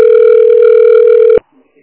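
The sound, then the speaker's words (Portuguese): A telephone dial tone sounds while a call is placed, a loud steady electronic hum that cuts off abruptly, leaving near silence. “Ah, eu vou ligar pro Roberto.”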